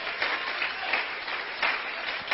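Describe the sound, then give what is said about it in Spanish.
Applause from a crowd at a religious gathering, honoring Christ: a dense, steady wash of clapping with a few gentle swells in loudness throughout. “El aplauso sea más fuerte, que Él se lo merece.”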